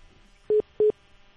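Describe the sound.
Telephone keypad tones as a number is dialed: two short, identical electronic beeps of the same steady pitch, separated by a brief pause, alone against near silence.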